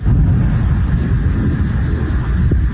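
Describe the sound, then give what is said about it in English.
Heavy booming rumble of nighttime airstrikes mixed with sea waves in a southern Iranian coastal city. A loud, continuous low roar fills the whole stretch, with a brief sharper burst near the end. “The sound of airstrikes mixed with the usual sound of the waves in the sea.”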